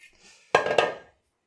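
A cutting board and glasses clatter in a kitchen as dishes are dried: two sharp knocks about a quarter second apart ring briefly, then fade to silence.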